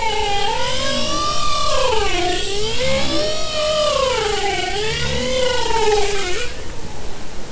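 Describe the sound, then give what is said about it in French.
Bowhead whales vocalizing in an underwater recording: loud, continuous moaning calls with rich harmonics that waver and sweep up and down in slow arcs over a steady hiss, fading to background noise near the end. “Alors c'est pas des baleines à bosse, c'est baleines boréales.”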